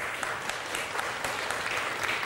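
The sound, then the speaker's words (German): Steady, dense applause from a studio audience as guests are introduced on a political discussion show, a continuous wash of many hands clapping at an even level, without voices. “ja, ruhig Applaus.”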